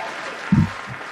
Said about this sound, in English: There's the congratulations, applause. Going crazy.